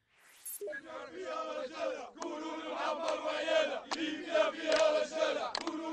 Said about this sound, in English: And here's the sound of rebel fighters regrouping outside the strategic eastern city of Ajdabia.